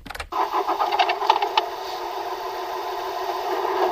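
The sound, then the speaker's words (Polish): A diesel car engine of about two litres cranks with a rapid series of pulses, catches, then settles into a steady, rumbling idle that holds to the end. “Potem ktoś odpala silnik.”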